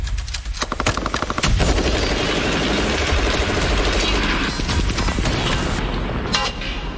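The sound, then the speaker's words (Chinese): Rapid automatic fire from a QJB201 squad light machine gun, loud dense bursts of shots rattling almost continuously from start to end. “当步兵班需要持续的火力支撑， QJB201班用机枪便是战场环境下不可或缺的武器。”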